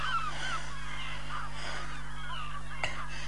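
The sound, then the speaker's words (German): Seagulls crying at night: a few faint, high calls scattered over a constant low hum, with no voices over them. “Das sind die Möwen. Die müssen mich erschreckt haben.”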